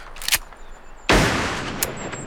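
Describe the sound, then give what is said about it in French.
A carbine shot fired at a condor: one loud, sharp crack that bursts out and decays in a long noisy rush, with a couple of fainter short bangs before and after. “Vite, ma carabine.”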